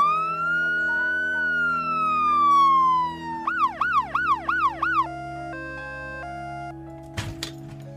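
An ambulance siren from a Red Crescent emergency service sounds alone: a long swooping wail, then a rapid run of warbling yelps, followed by steady stepped tones and a brief clatter near the end.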